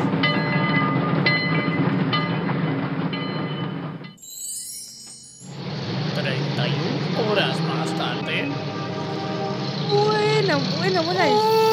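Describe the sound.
A passenger train on a long journey from Buenos Aires to San Miguel de Tucumán gives a continuous loud rumble and rattle of wheels and carriages. The noise briefly drops away midway, then returns just as steadily.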